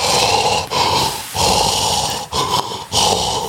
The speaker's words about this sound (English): that's how loud their fucking breathing was. You could just hear it. It was like,